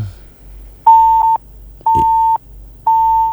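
A dropped caller's line on a radio song-request call-in gives three steady, mid-pitched disconnect beeps, each about half a second long and evenly spaced roughly a second apart, with no talk over them.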